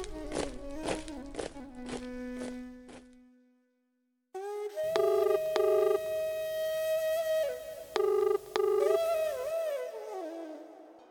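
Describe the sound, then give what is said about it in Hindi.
A telephone number is dialed with a quick series of short electronic keypad beeps. Sustained electronic tones follow, broken by a few more beeps. “एक बार भैया के phone लगाई”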